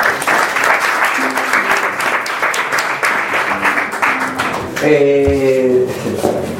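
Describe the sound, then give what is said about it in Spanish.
Audience applause at a poetry recital, a dense, steady wash of clapping that runs through the whole stretch at even loudness, with a voice briefly heard near the end. “Un buen aplauso.”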